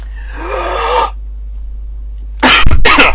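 Coughing after a deep breath: a drawn-out breathy sound gives way to a quiet pause, then two loud, harsh cough bursts close together.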